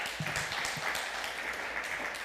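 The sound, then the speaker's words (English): Faint, steady applause from a church audience honoring those who served in the military, a soft, even patter of many hands with no rise or break. “So anyone who served, we just applaud you.”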